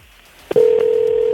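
Ringing tone of an outgoing telephone call: a brief click, then a steady, loud, mid-pitched tone that holds unbroken to the end.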